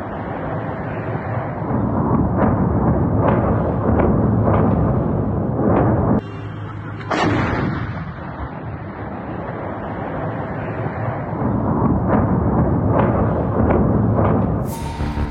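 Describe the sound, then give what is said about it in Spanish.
Bombs and missiles detonate in Mariupol, producing a loud, continuous roar with repeated booming thuds. The rumble briefly dips in the middle before it swells again, and a sharp burst comes near the end. “Así siguen detonando bombas y misiles en Mariupol.”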